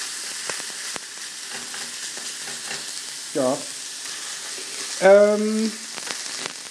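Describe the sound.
Minced meat fries in a pan on a gas stove with a steady, crackling sizzle throughout, and a person briefly voices a short word over the frying.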